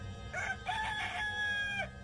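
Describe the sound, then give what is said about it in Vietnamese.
A rooster crows at dawn, one drawn-out call that rises and then holds a bright, strained tone before it cuts off, over a quiet background. “Sáng hôm sau, trời còn tờ mờ sáng thì tiếng gà gáy”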